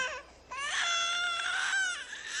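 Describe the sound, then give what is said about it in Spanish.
A baby cries in a drawn-out, wavering wail that swells to full strength and then eases, faint and alone, with no talk. “La alarma del bebé.”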